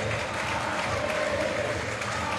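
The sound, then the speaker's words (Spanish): A football stadium crowd applauds as the team captain leaves the pitch during a match. The clapping is steady, dense and fairly faint, and continues without a break. “Aplaudido, ahí se retira el capitán de Boca”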